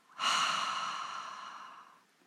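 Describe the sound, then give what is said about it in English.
A breathing-exercise exhale released after a held breath: one loud, breathy sigh that starts sharply and fades over about two seconds, heard alone without talk. “Tense the body while you hold the breath, and release with a double exhale.”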